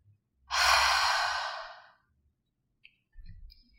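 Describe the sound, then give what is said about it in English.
A long, loud, hissing exhale through the mouth, like fogging a mirror, follows an inhale through the nose. The breath holds for about a second and a half before fading, and a few faint, soft breath noises come after it. “We'll inhale through the nose to fill up the lungs, and exhale through the mouth, making a sound like fogging a mirror. So it will sound something like this.”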